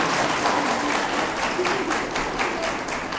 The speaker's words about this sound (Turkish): İşte ama alkışlamaya siz alışmayın.